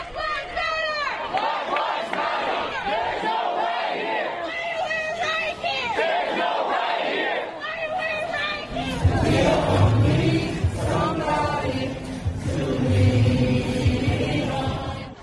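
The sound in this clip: Protest crowds in US city streets after George Floyd's death chant and shout. Rhythmic group voices rise in waves, and the crowd noise grows fuller and louder about midway through.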